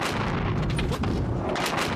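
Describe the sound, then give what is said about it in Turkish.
Explosions in the Strait of Hormuz region after a US strike: a loud, dense, continuous rumble of overlapping booms and blasts with no clear gaps between them. “Mutabakat sonrası bölgede günler sonra yeniden patlama sesleri yükseldi.”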